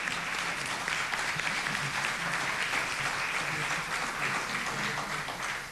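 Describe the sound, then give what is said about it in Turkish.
Dense audience applause fills a concert hall at a culture centre, honouring the composer and conductor of a radio artists' concert. The clapping is steady and sustained throughout, a continuous wash with no clear gaps. “Alkışlar bestekarımız ve şefimiz Ahmet Kadri Rizeli için.”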